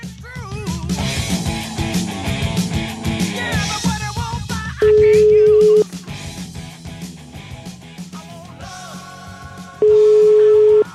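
An outgoing telephone call gives two long, steady ringing tones about five seconds apart. Each rings alone for about a second, after a stretch of music with gliding pitches.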